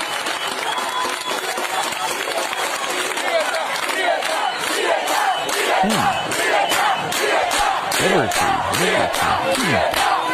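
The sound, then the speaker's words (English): A Cuban group chants as a loud crowd. Shouted voices repeat in a steady, regular rhythm with strong pulses that run continuously throughout. “Here's another Cuban group chanting.”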